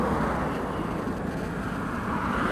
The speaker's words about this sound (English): So it's right in front of us now. We are actually in the car park of the World's End.